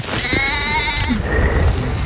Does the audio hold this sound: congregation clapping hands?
no